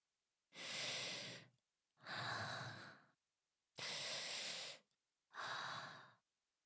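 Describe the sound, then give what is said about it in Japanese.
Deep breathing, four slow, full breaths about a second each, evenly spaced with brief pauses between them, soft and airy with no talking. “はい、ちょっと深呼吸しようか。”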